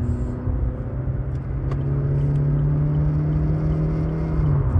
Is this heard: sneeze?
no

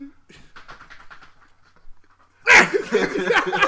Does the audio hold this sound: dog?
yes

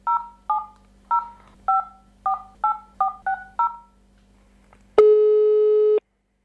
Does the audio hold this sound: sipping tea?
no

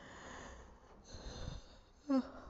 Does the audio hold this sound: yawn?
yes

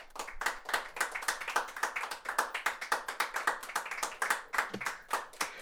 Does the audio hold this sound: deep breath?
no

